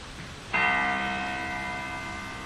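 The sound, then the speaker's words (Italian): Musical notes C, G, C, E and G sound together as one bright, bell-like major chord that starts suddenly and sustains, slowly fading over about two seconds above a steady background hiss. “Il Do dell'ottava sopra, poi c'è il Sol, il Do, il Mi e il Sol. Guardate come suonano bene!”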